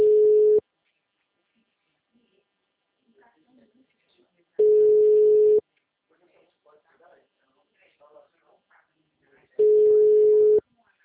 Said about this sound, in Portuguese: Deixe sua mensagem na caixa postal. O número está ocupado.